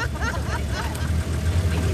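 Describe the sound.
A car engine idles in Havana, Cuba, a low, steady rumble running beneath people talking for about two seconds.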